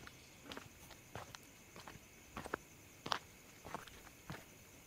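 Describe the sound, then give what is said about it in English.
Footsteps walking toward a new home: a steady series of soft, evenly spaced steps, quiet and alone with no talking. “Oh, no, don't worry. We're almost there, I think. Just a little more walking, okay?”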